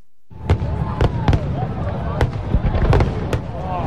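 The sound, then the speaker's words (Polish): Fireworks explode in many sharp, loud bangs at an irregular rhythm, with crackling bursts and thin whistling tones between them over a continuous rumbling bed. “A w cyklu naukowym niespodzianka. Fajerwerki.”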